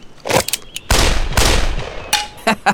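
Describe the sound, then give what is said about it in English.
Two fast pistol gunshots from a quick draw, fired as a dropped rock falls toward a pie pan: loud, sharp cracks with rumbling tails, arriving in quick succession among a few short bursts, with no voices. “You got both shots off in under a second.”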